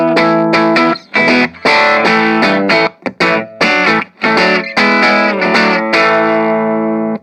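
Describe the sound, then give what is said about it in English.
Electric guitar played through an Orange Crush 20RT amp with the mids pushed up, giving a focused, honky overdriven tone. Loud, sustained chords ring out in bursts, broken by a few brief gaps, with a chorus-like shimmer and no voices. “Push the middle a bit. Gives that kind of more focused, kind of honky kind of noise, but not too crazy.”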